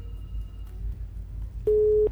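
Telephone busy tone on a radio phone-in after the caller's line drops: one steady, clear, mid-pitched tone burst that sounds near the end over a faint low hum.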